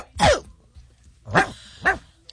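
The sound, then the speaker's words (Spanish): Three dog barks, each a loud, harmonically rich yelp separated by pauses of about a second, with the last two closer together. “Este perro estaba como raro, ¿verdad?”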